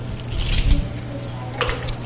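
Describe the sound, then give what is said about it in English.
A ring of keys jangles as they are tried one after another in a lock, giving bright metallic clinks and rattles in a few short bursts over a low steady hum. “What do we need to open the lock if none of these keys are the right key?”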